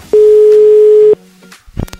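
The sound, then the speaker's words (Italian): A telephone ringback tone from an outgoing call placed from a radio studio: a single loud, steady mid-pitched beep lasting about one second, then a quiet gap with a few faint clicks. “Suona libero, vediamo se ci risponde.”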